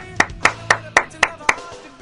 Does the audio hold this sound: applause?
yes